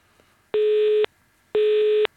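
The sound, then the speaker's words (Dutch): A telephone busy signal: two identical steady beeps, each about half a second long and separated by an equal pause, loud and clean over faint line hiss. “In gesprek.”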